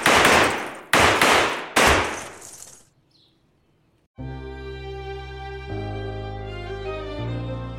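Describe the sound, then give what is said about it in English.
Three sharp, loud bangs from a black .32 caliber handgun, about a second apart, each ringing off quickly. Near-silence follows, then sustained music begins. “Deftly, she pulls out a black 32 caliber handgun. And before Tiller can register what is happening, the woman has fired 6 shots in his direction.”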